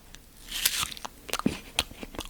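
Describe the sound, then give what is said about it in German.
A crunchy apple is bitten, giving several sharp, crisp cracks and crunches in an irregular run, loud and clear with no talking. “Also, ich mache jetzt ein Geräusch und ihr dürft raten, was das für ein Apfelknacken ist.”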